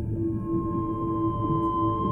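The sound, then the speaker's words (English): Deep bellow of two blue-gray whales, a low, steady droning call that holds evenly for about two seconds, alone and moderately loud. “a deep bellow from a large creature And before your eyes, two blue-gray whales appear,”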